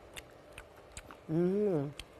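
Soft, faint chewing clicks from someone eating tender scallion oil chicken with its skin, broken by a brief hummed voiced tone of appreciation in the middle.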